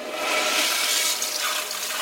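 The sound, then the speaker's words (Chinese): Toilet in a seaside villa flushed after ashes of burned papers and a lighter were dropped in. A loud, steady rush of water lasts about two seconds, with no voices. “他按下冲水阀”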